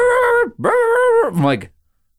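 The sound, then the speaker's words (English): A human voice imitates a dog barking and whining in a carrier on a plane: two long, loud, sustained nasal cries, then a shorter wavering yelp that trails off into silence. “Stop this dog from barking.”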